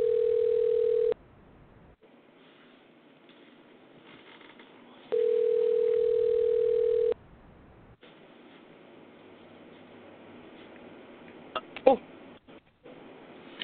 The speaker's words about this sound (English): I'm going to hit this little red button that says dial. Let's see what happens.